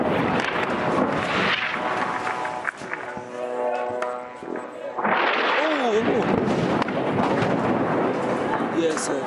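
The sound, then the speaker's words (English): An airstrike explodes near a Kuwaiti hospital in southern Gaza. A loud blast breaks in about midway and gives way to a sustained roaring rumble, with a person talking before and after it. “Al Jazeera cameras caught the harrowing moment that an airstrike landed near a Kuwaiti hospital in southern Gaza.”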